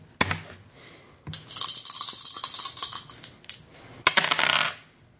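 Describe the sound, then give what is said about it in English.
Two six-sided dice rolled during a tabletop game, clattering and rattling with a few sharp knocks and a busy jumble of small clicks between them, with no talking. “Roll 2d6.”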